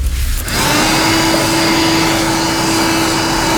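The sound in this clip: A household vacuum cleaner switches on and runs with a loud, steady whine over a constant droning hum, alone with no voices.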